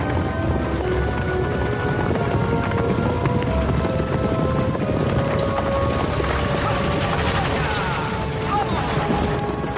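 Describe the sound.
Horses pulling a stagecoach along a thickly wooded hillside: steady, continuous clip-clopping hooves blended into a dense, loud rumble that runs throughout without a break.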